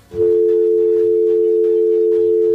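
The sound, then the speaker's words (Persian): A telephone tone after a dropped call: one steady, unbroken mid-pitched tone sounding alone for about two and a half seconds before cutting off. “فکر میکنم که تماس قطع شد”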